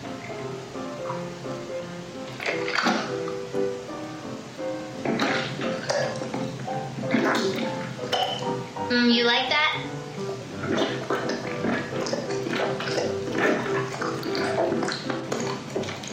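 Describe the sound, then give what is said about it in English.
Wet, gagging throat sounds from deep-throating a large dildo. Irregular slurping and choking bursts with breathy noises repeat throughout, and a voice speaks briefly between them. “Today, instead of my usual stream, I have this huge dildo that I'm going to be deep-throating. You're all gonna get to hear my throat getting fucked.”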